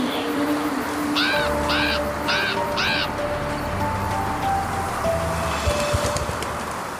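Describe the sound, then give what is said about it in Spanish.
A crow caws four times in quick succession, each harsh, raspy call distinct over a steady low rumble and faint tonal background that continues after the calls stop. “Comenzó a graznar y salió volando.”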